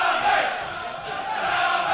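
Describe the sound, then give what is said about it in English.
Football supporters of FC United roar and chant during the second half of a match against King's Lynn Town. The crowd noise is steady and sustained, swelling and easing slightly as voices carry together. “Well, the crowd are doing their best to try and get FC United lifted in the second half.”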